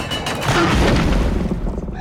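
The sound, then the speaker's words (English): A heavy gate crashes closed with a loud, deep, booming rumble that fills the whole clip as a dense wash of noise rather than one sharp hit. “The gate crashes closed.”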